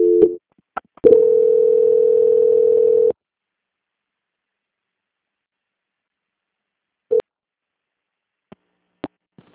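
Telephone line tone during a bank call transfer: a short steady tone, then a longer steady tone of about two seconds, followed by silence broken by a few brief beeps and clicks.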